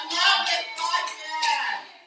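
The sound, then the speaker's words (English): A small live audience claps briefly, the scattered applause of only a few people rising quickly and then tapering off. “That's our live audience, a.k.a. our one fan and our parents.”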